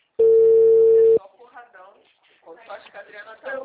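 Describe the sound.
A phone tone after a dropped call: one steady, mid-pitched beep lasting about a second, then cut off as a voice begins speaking.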